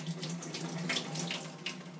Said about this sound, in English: So I'll just wash my hands